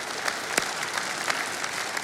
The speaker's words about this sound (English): Oh, can we give these teachers a round of applause?